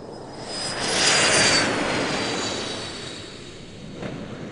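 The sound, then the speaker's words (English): An airplane takes off: a broad engine roar swells over the first second and then slowly eases. A steady high whine runs through the sound, with no voices. “We are ready for takeoff. Please fasten your seatbelts and enjoy the ride.”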